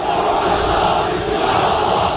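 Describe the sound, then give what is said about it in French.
Several hundred Turkish fans chanting for Mohamed Salah at Istanbul Atatürk airport as he arrives to join Trabzonspor, a dense, loud and unbroken wall of massed voices that holds steady throughout. “Ils étaient donc plusieurs centaines à chanter à la gloire de Mohamed Salah quand le pharaon a fait son apparition à l'aéroport Atatürk d'Istanbul, maillot de Trabzonspor sur les épaules.”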